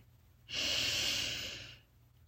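A single slow inhalation taken during a guided visualization exercise, a breathy hiss that swells in and then tapers off over about a second and a half, heard alone with no talking.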